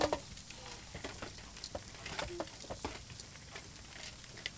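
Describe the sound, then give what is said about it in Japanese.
Charcoal is spread flat in a barbecue grill, giving many faint, light clinks and scrapes in an irregular rhythm. “このタイミングでバーベキューコンロに炭を平たく広げて、”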